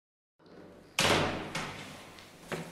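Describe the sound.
A plain metal door at the back of the Belvedere courtyard in the Vatican archives is unlocked: a heavy thud followed by two fainter clunks over a low hiss.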